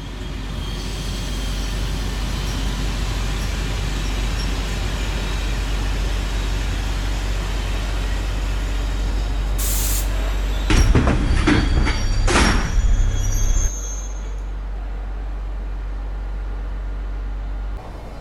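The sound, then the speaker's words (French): A train pulls into a station. A steady low rumble of rolling wheels gives way to a burst of rattling clatter and brief squeal, then drops to a quieter hum as the train halts. “Le Galaxy Express 99.9 à destination de la planète Rametal va faire une halte en gare de Star Club.”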